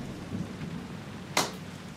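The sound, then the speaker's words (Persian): Rain falls outside at night as a faint, steady hiss, with one brief sharp crack partway through. “بیرون داره بارون میاد.”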